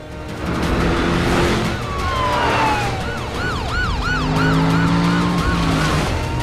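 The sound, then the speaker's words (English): Police car sirens wail during a chase through suburban streets, with a loud, continuous rising-and-falling yelp cycling rapidly over the rumble of vehicle engines. “leads the posse of police cars into more suburban streets, keeping a wary eye on his mirror all the while.”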